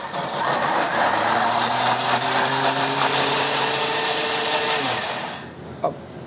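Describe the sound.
A blender coarsely chopping four bunches of vegetable tops with a spoonful of mustard for a greens pesto. A loud, steady motor whir with a low droning hum runs for about five seconds, then winds down, followed by a faint click.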